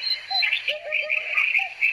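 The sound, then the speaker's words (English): A hoopoe calls outdoors in a few short, soft hooting notes, mixed with higher chirping tones. The calls come in brief bursts at moderate loudness. “There's the hoopoe for you.”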